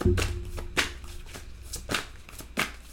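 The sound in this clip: Oracle cards being shuffled for a reading, a series of quick, crisp rustling bursts that come in a loose, uneven rhythm.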